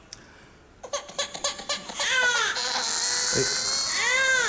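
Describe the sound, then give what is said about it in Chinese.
A hungry infant cries, starting with a quick run of rhythmic sobbing bursts. These give way to loud, sustained, high-pitched wailing that holds to the end. “这咋还哭？咋的？哭了？哦，饿了这？”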